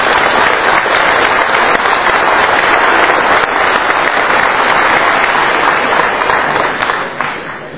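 A large audience at a chess event applauds warmly to welcome and thank the staff, the clapping loud, dense and sustained before easing off in the final moments.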